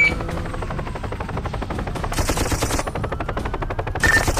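Rapid automatic gunfire in a shooter video game, with fast repeated shots running in continuous bursts throughout and a few sharper, brighter cracks standing out near the middle and end.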